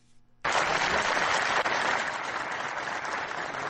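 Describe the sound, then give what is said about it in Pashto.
Applause at a large gathering in Farah after the acting governor's speech on the polio vaccine. It breaks out suddenly and loudly, then continues as a dense, steady clatter of many hands. “دلته یوه لویه غونډه رابلل شوې او د فراه د سرپرست والی محمد آصف ننګ هغه خبرې په چکچکو بدرګه شوې”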